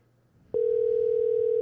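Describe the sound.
A telephone dial tone sounds while a call is being placed: a steady, unbroken tone that starts abruptly after a brief quiet moment and holds evenly to the end.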